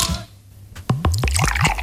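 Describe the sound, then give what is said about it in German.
A cold drink can taken from a fridge in a radio studio is opened: a sharp crack, then a quick run of gurgling, squishy liquid pulses, heard alone. “Das nächste Dösli, das wir direkt aus dem Kühlschrank rausnehmen und für euch einfach zur Abkühlung aufmachen hier am Radio.”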